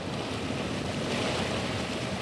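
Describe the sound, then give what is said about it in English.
Rushing water and wind aboard a small passenger ferry crossing the Mississippi River between Ste. Genevieve, Missouri, and Modoc, Illinois, a soft, steady wash with no clear breaks. “And today we're on the river. We're riding across the Mississippi on a small passenger ferry. It goes between St. Genevieve, Missouri, and Modoc, Illinois.”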